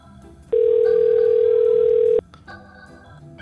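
A telephone dial tone while a call is being placed: one steady, loud, unbroken tone lasting under two seconds, starting and stopping abruptly, with only faint low sounds around it.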